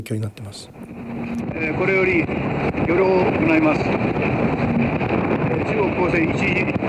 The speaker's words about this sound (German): Ein japanisches Motorboot auf hoher See, nahe der Senkaku-Inseln.